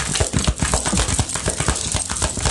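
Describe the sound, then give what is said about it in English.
Communication cards for a reading are shuffled and handled, a rapid run of many crisp papery flicks and snaps in a steady patter, with no speech. “All right, we're going to get some communication cards, see what messages we have coming through for the collective regarding.”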